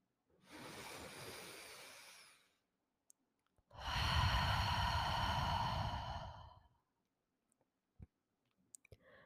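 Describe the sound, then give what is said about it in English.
A deep breath is drawn in audibly, then let out in a longer, louder, breathy exhale, followed by a few faint scattered clicks in the quiet that follows. “Now, when you are ready, then you take one last deep breath”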